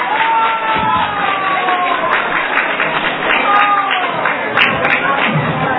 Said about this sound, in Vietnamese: xin quý vị cho một tràng pháo tay thật lớn để kích thích tinh thần của bé Bảo Châu